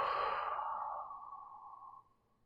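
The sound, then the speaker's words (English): A deep breath: one long breathy rush that starts strong, softens gradually and trails off after about two seconds. “Now, take 3 more deep breaths. Inhale and exhale.”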